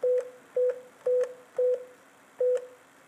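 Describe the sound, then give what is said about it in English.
Telephone keypad tones are pressed to enter a new PIN on an automated phone system: five short, clear electronic beeps at roughly half-second intervals, each followed by a faint ringing tail. “Enter your new PIN again to confirm it.”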